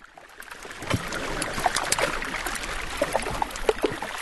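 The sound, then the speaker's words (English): Trapped air bubbles pop as salty seawater melts freshwater iceberg ice in Svalbard, giving many faint, irregular ticks and crackles scattered over a soft, steady watery hiss. “That's the sound of trapped air bubbles popping in an iceberg. There are hundreds of thousands of them, bursting as the salty seawater melts the freshwater ice.”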